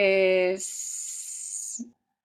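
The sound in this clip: A voice imitates a snake's hiss. After a brief voiced tone comes a sustained, bright, high hiss lasting about a second, ending with a short low vocal sound before silence.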